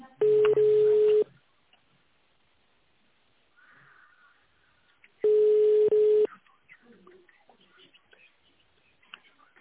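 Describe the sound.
A telephone ringback tone plays while a call is transferred to an operator: two long, steady beeps about four seconds apart, with near-silence and faint noise between them.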